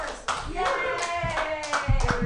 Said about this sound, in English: Put your hands together, everybody, for Brady Pearson.